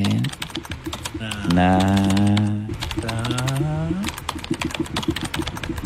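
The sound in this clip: Rapid typing on a computer keyboard at a doctor's desk during a clinic appointment: many sharp, irregular clicks run through the whole clip under a voice.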